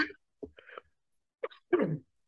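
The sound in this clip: A person coughs and clears their throat in a few short, rough bursts separated by brief silences, the last burst the longest.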